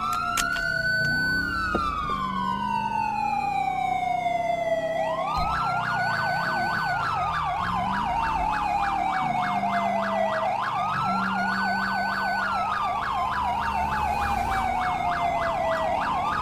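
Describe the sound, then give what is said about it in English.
A police car siren in a video game, from an AI-driven car, wails loudly and continuously, its pitch sweeping up and down in long repeated cycles with no voices over it. “That's a Los Santos police car! Good god. That's an AI on Los Santos police car.”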